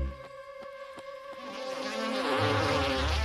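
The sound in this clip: Bees buzzing around forest flowers, a continuous droning insect hum that swells gradually louder toward the end, with no voices.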